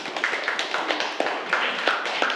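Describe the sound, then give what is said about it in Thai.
Scattered clapping from Thai schoolchildren in a classroom, applauding their classmates' first group, with a few sharp claps ringing out irregularly over a light bed of tapping and rustle. “เก่งมากปรบมือให้เพื่อนก่อนกลุ่มแรกนะคะ”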